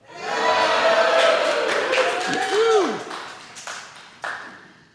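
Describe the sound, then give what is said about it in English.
A live audience in Park Hall calls out a greeting together. The many-voiced swell is loud for about three seconds, then fades into a few scattered taps and murmurs. “And we're in here today with a live audience. So you will hear a live audience for those listeners that are not in the room with me. Can the audience say hello?”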